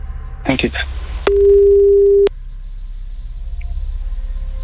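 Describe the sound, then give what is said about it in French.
Outgoing call telephone tone: a short noisy burst, then a single steady, even-pitched tone lasting about a second, followed by faint background hiss. “on appelle Louise tout de suite”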